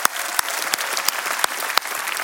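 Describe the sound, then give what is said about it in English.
A church audience at The Rock applauds during a service, dense steady clapping that holds throughout, with a few sharper individual claps popping out above the wash. “Let's give them a big hand. God bless y'all.”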